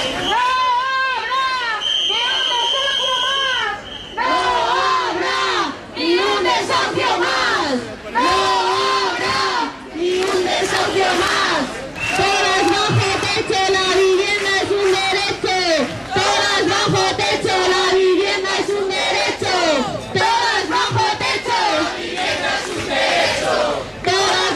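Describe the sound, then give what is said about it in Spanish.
Protest crowd at a housing union rally in front of the government delegation in Cantabria, many voices chanting loud, rhythmic slogans in repeated phrases with short breaks. “Son algunos de los sonidos que se han escuchado en la concentración frente a la delegación de gobierno organizada por el Sindicato de Vivienda de Cantabria”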